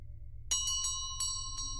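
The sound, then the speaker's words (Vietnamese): A bronze bell jingles in about five bright metallic strikes with ringing high overtones, coming in quick, uneven succession. The strikes are faint over a low steady hum. “bên tai cô là tiếng chuông đồng len keng, nghe chối vô cùng.”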